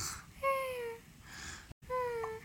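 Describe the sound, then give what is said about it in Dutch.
Faint baby crying in two drawn-out wails, each sliding slightly downward in pitch, separated by a brief silent gap. “De baby ween.”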